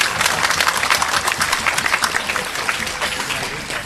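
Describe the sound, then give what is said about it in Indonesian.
Audience applause at an Islamic religious lecture, many hands clapping in a dense, steady patter that stays at an even, fairly loud level for the whole clip. “tepuk tangan sing banter, enggak usah malu-malu.”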